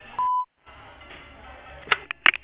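A voicemail beep tone sounds before recording a message: one short, loud, steady beep, then faint hiss and a few brief clicks and bursts of noise.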